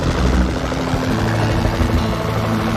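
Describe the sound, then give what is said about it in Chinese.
Helicopter patrolling over a bald eagle nest near the Federal Dam at Troy on the Hudson River, a loud, steady low rotor rumble mixed with broad whooshing noise throughout, with no voices. “一架直升机正在白头海雕的巢穴上空巡逻，这里就在特洛伊的联邦水坝附近。”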